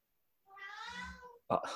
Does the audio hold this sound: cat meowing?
yes